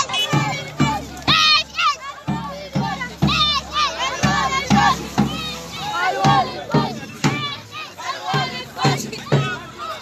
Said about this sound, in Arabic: وردد المشاركون في الوقفة هتافات